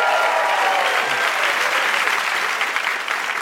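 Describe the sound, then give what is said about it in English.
A live studio audience at a game show applauds the night's guests with sustained, dense clapping that holds steady and loud from start to finish. “Can we give all our guests a hand tonight one more?”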